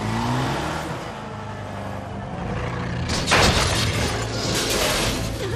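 A car accelerates away in an escape, giving a loud, noisy roar throughout. A sudden bright, crash-like burst cuts in midway before the roar carries on.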